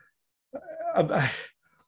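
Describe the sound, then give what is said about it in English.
A pet cat meows once with a drawn-out, wavering cry of about a second, alone against near silence. “say hello to my cat, Internet.”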